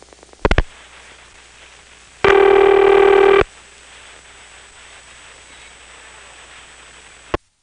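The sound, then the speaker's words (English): Telephone dialing tones as the rest of a number is dialed through a register sender: a few clicks, then one loud steady multi-tone burst lasting about a second, and a final click over constant faint hiss. “Let's dial the rest of the number.”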